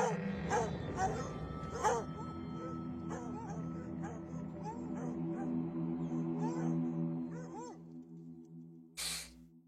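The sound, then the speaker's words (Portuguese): A dog gives faint yips and barks mixed with low talking. The short, pitch-bending cries repeat irregularly throughout, and a sharper burst comes near the end. “cachorro.”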